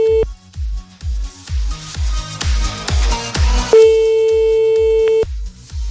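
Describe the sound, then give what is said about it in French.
A telephone call ringing out, the ringback tone sounding as a brief steady tone at the start and again later as a longer held tone, over a loud thumping rhythmic beat that runs throughout. “Bon, allez, on y va. On appelle.”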